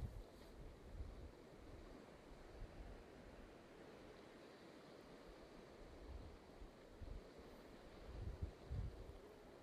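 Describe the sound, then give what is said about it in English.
Atlantic Ocean waves lap at rock at Smoo on the north coast of Scotland, a low continuous wash of water mixed with wind, swelling slightly in a few surges toward the end. “Pocken Smoo on the north coast of Scotland, with the Atlantic Ocean lapping at the rock in front of us.”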